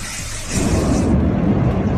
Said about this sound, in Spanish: Ahí hay 8 metros, de lava. Hemos visto las casas caer y hasta explotar. Ahí va, ahí va.